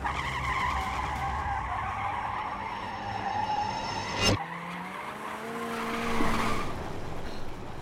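Car tires squeal loudly as a getaway car speeds off, a sustained rubbery screech over a steady engine roar with a sharp snap midway, and no voices.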